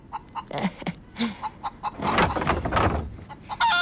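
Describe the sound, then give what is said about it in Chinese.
Hen clucking after laying an egg, a run of short, uneven clucks that grows louder and more continuous toward the end. “又下蛋了。来，吃吧，吃饱了好天天下蛋。今天的鸡蛋可真大呀，不会是双黄的吧？”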